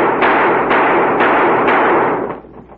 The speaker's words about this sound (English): we ain't seen shooting like that